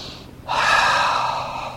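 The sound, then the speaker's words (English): One deep, deliberately exaggerated breath in starts after a quiet moment. A loud, airy rush of inhaled air holds for about a second, then eases slightly toward the end. “That means to begin to breathe in, if you have to exaggerate it”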